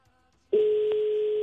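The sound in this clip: Ringing tone of an outgoing telephone call: a single steady tone that starts abruptly after a brief quiet moment and holds unbroken to the end.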